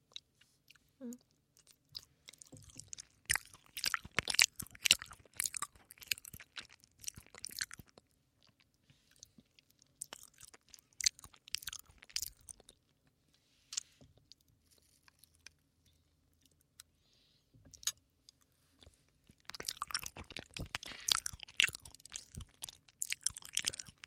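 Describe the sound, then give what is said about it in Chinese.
Wet chewing and smacking of someone eating homemade mashed potatoes, coming in several uneven bursts separated by quiet pauses, fairly faint and with no talk. “我做的土豆泥，你要不要吃一口？”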